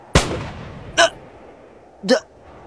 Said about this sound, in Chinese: 中村见了，二话没说，掏出手枪对着二宝就是一枪。